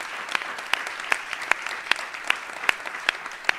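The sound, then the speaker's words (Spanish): An audience applauds at a political gathering. The clapping is faint and steady, with sharp individual claps punching through at a fairly regular beat. “Así que pedimos un fuerte aplauso, digamos, para ellos.”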